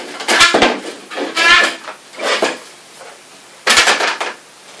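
A cupboard or drawer being pulled open: several short scraping, sliding bursts separated by brief pauses, the last one louder and longer, with no voices.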